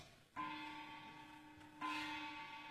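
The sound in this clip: A work bell rings with two struck tones about one and a half seconds apart, each leaving a long, humming ring that slowly fades; fairly quiet overall.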